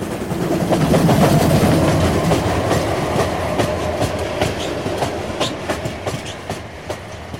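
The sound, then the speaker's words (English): Steam trains run on rails with a steady rolling rumble and a continuous clickety-clack of wheels over the track. It is loudest at the start and eases slightly while the rhythmic clicks carry on. “I remember sitting there, listening intently to the sound of the steam trains.”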